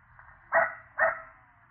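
A dog barking over the telephone, two short, clipped barks about half a second apart, sounding thin and tinny through the narrow line.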